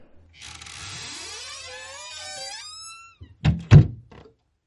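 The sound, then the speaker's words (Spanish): A small door creaks open on its hinge with a long, wavering squeal lasting a few seconds, followed by two solid wooden thunks. No voices are heard over it. “Esperad, que he llegado a la puertecita mierda.”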